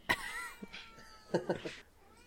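A cat on a bed meows faintly in one short call with a falling pitch, followed by a few soft, muffled sounds.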